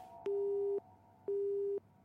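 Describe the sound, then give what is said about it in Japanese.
A telephone busy tone after a call is disconnected: two identical steady mid-pitched beeps, each about half a second long, separated by equal silent gaps. “電話は切れてしまいました。”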